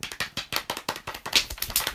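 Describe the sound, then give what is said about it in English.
Drum roll of many quick, sharp taps in an even, rapid rhythm, continuing steadily for about two seconds. “Drum roll, please.”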